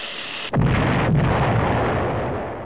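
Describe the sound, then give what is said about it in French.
A bomb exploding during wartime: after a brief quiet moment, a sudden loud boom hits, followed by a long rumbling roar that slowly fades. “Il entend une bombe qui explose.”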